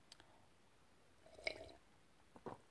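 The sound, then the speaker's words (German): Faint sips and swallows of a drink, a few soft wet clicks and gulps separated by quiet pauses. “warte, ich muss gerade schon was trinken, sorry.”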